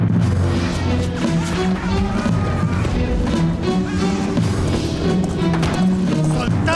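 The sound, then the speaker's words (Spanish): Hooves of horses trotting slowly make a dense, continuous clip-clop clatter at high volume, with other rough noise layered over the beat. “Diezmados los guerreros, algo dispersos entre sí, a trote lento y orillando un palmar y una cañada.”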